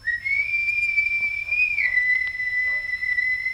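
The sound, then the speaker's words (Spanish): A long, high whistle heard from afar, a familiar signal call. It rises slightly as it starts, holds steady, then steps down a little in pitch about halfway through and sustains to the end. “oí a lo lejos el famoso silbido.”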